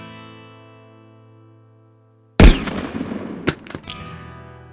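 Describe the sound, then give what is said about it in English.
Gunshots in a gunfight: a sudden loud blast cuts in after a fading sustained tone, followed by a few sharp, separate cracks that ring out briefly. “Gunfight's over, Bubba. And you lose. Don't shoot me, Rawhide.”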